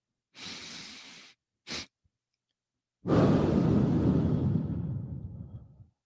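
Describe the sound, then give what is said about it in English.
Breathing exercise: a deep drawn-in breath, a short quick breath, then after a pause a long, loud breathy exhale that slowly fades out, with no talking. “one deep breath and then one quick breath and then a deep and then a long exhale. So I think, let me just demonstrate.”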